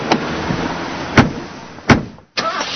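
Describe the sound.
Car sounds for a radio advertisement, a car just back from a collision repair shop after a bad crash: steady engine and road rumble broken by two sharp thumps, then a brief drop to silence before the rumble returns.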